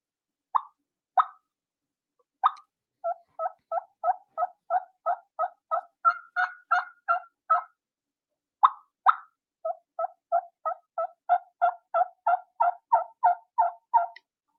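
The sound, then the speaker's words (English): A turkey mouth call imitates a hen's tree call: soft yelps, little pips and bubble clucks. A few isolated notes lead into long, quick, rhythmic runs of short calls. A brief pause separates two runs, with no talking. “And that's the tree call. Just a soft little yelp, a couple of those little pips, those little bubble cluck. And you're just making contact with the bird.”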